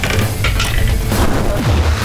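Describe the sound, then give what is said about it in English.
A crossbow fires a mystic energy bolt in a fantasy game: a dense, loud mechanical rattle and clatter over a heavy, booming low rumble. “You load a mystic bolt of energy, and you fire.”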